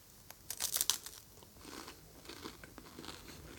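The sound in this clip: A crunchy waffle filled with Nutella is bitten and eaten. A quick cluster of crisp crunches comes early, then softer, fainter chewing continues to the end with no talk.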